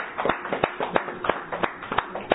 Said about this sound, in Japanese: 佐々木さんご夫妻が結婚59年の記念日を元気に迎えられましたので盛大な拍手でお祝いを。